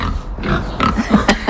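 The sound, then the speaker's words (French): Pigs grunt on a farm, sheltered under a barn behind a low wall, giving a few short, low, rough grunts and snorts in quick succession. “il y a même quelques cochons. On les aperçoit derrière un petit muret, bien abrité sous une grange.”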